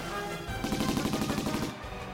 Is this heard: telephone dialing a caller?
no